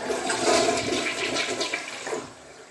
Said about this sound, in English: I'm not that desperate to pick them out of the toilet and dry them. That's too desperate for me. So let's flush them.